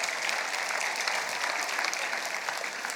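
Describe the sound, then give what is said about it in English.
Church audience clapping together: a dense, steady stream of applause that continues evenly throughout at a moderate, slightly soft level. “Either clap or don't clap, one of the two.”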